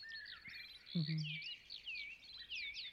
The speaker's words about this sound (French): Regarde, maman, une alouette. Au-dessus du champ des pieds vaches, en vol stationnaire, au-dessus des blés. Tu entends comme elle chante?